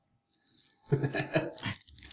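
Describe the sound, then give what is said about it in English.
Plastic wrapping crinkles and tears as a board game expansion package is unwrapped right up against a microphone. It starts with faint rustles, then turns to louder bursts of crackling and ripping that are heard alone. “Let's unwrap this. Oh, baby. Thing. Mm. Put it right in the mic. Put it right in the mic.”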